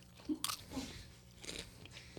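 Popcorn being chewed, with a few crisp, crunchy bites followed by softer mashing that is quiet and irregular, with no talk.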